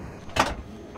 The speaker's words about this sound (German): Dann einmal die Tür schließen.